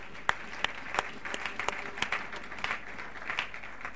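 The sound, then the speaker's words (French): An audience applauds during a church service after a scripture reading: sharp individual claps stand out at first, then thicken into a fuller, uneven round of clapping that stays moderately quiet. “Et nous acclamons la parole de Dieu.”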